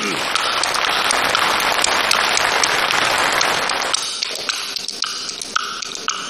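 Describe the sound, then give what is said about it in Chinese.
Applause from the audience at a comic crosstalk performance: a loud, dense wash of clapping for about four seconds that thins into scattered individual claps as a voice starts talking. “这个掌声热烈一点”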